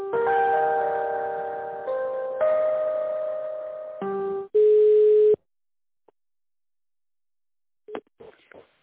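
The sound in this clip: An electronic telephone line tone sounds while a call is transferred, a run of chiming tones that change pitch, then one loud steady beep. Silence and a few faint clicks follow.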